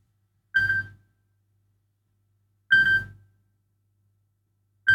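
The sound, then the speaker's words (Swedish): A telephone rings in short, evenly spaced bursts: two clear rings about two seconds apart and the start of a third. Each is a bright, buzzy tone over a low hum, with silence between. “Det ringer hör vem kan det vara”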